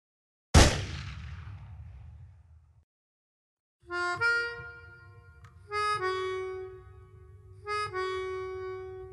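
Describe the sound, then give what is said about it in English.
A handgun fires once at a shooting range, fired by a novice shooter: a sudden, sharp, loud report with a rumbling tail that dies away over about two seconds, followed after a pause by a few quieter tonal sounds. “I shambled up to the shooting line and basically just held out my arm, clamped my eyes shut, and squeezed the trigger.”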